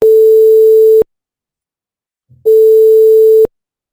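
Two telephone call tones sound, each a steady mid-pitched beep lasting about a second, separated by a pause of silence with a faint click just before the second tone.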